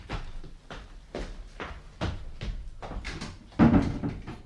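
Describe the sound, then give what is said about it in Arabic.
A door is shut with a heavy, loud thump near the end, preceded by a run of softer, evenly spaced thuds. “اقفل الباب وراك.”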